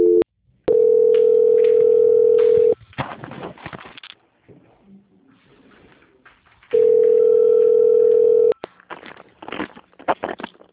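Telephone line tones sound while a call is being transferred: two long, steady, flat tones of equal pitch, each lasting about two seconds. Between them come several seconds of faint line noise and clicks.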